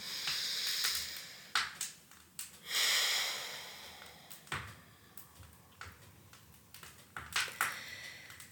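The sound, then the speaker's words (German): Deep breaths are drawn in and out through the nose, with a series of airy sniffs and longer hissing exhales in an uneven rhythm, fairly quiet, with no talk. “Und atme hier zwei, drei tiefe Atemzüge tief durch die Nase ein und aus.”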